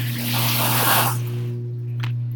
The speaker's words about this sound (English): It's moving. Okay. Wow, that's a lot of water.